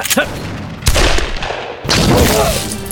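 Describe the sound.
Heavy blasts from a sawed-off shotgun being fired, two loud booming bursts with a long, rough roar trailing after each, following a brief sharp burst at the very start.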